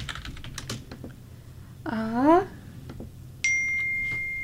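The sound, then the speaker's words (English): A mobile phone notification chime rings out as one bright, steady electronic tone that holds to the end. Soft tapping clicks come before it. “That was my phone. I'm sorry.”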